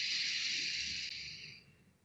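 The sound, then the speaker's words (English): A slow inhalation through the left nostril while the right nostril is held shut, making a steady, airy hiss that lasts under two seconds before tapering off. “So we would use the thumb to close your right nostril, and then you breathe in through the left.”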